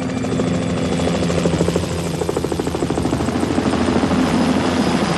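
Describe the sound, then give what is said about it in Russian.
Helicopter with a searchlight flying over a square, its rotor thumping in a loud, steady, rapid chop that holds for the whole stretch with no voices. “Освещая ратушу прожектором, над площадью пролетает вертолет.”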